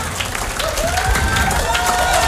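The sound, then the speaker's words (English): An audience applauds at a live concert with dense, steady clapping, cheers mixed in and a voice carrying over the crowd. “Give us some warm applause.”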